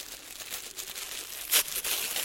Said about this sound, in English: And what we're going to do is we're just going to tear the pieces in half.